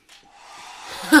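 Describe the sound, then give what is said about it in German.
A hair dryer whirs to life with an airy, hissing rush that swells steadily louder over about a second. A brief, stronger burst of sound comes at the very end. “Mach diesen Föhn aus! Das Ding ist hinüber!”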